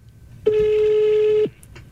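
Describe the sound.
A telephone tone as a number is dialed: one steady electronic tone at a fixed pitch lasts about a second, then cuts off, heard alone over a faint low hum.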